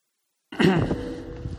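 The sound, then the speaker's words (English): A person clears their throat during a church service just before starting a sermon: one harsh, rough burst that starts abruptly after half a second of silence, then trails off into a gravelly rumble. “Everybody knows I just cleared my throat.”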